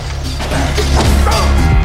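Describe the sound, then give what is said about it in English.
Heavy blows from a baseball bat swung at a man in an arcade where slot machines are being smashed. Dense, loud thwacks and crashes pile over a constant low rumble, with no clear gap between impacts. “He reaches behind a desk and pulls out a baseball bat, which he swings at one man, knocking him to the floor.”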